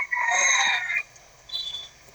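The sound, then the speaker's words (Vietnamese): A rooster crows in a strained, high, drawn-out call lasting about a second, followed after a pause by a shorter, fainter note. “ai có gà gáy thì vui quá vậy, gà là giờ nó còn gáy”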